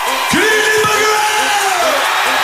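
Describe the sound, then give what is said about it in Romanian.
A stadium concert crowd in Bucharest cheers and yells loudly, many voices whooping in a continuous roar, with a long drawn-out shout that slides down in pitch. “Good Evening Bucharest a fost salutul pe care fanii l-au primit cu urale.”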